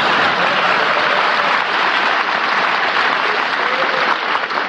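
An audience applauds loudly and steadily, with dense clapping that holds at the same level from start to finish.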